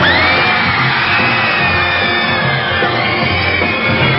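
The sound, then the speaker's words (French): A concert audience in Paris shouts and cheers loudly and without pause, a dense wall of yells and whoops with a sustained high tone running through it. “Maintenant, je vais vous entendre taper dans vos mains. Je veux vous entendre crier.”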